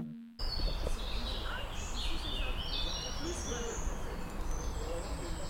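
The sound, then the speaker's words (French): Birds chirping outdoors over a steady wash of traffic from cars, with faint murmuring voices of people chatting. The chirps come in short, high bursts scattered throughout. “je sais pas si vous entendez, mais c'est le bruit des oiseaux avec un peu les voitures derrière et des gens qui discutent.”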